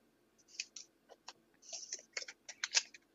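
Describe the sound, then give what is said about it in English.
Quiet typing on a computer keyboard: many irregular key clicks in short bursts with small pauses between them, and no other sound. “I typed in Jamie Foxx, really?”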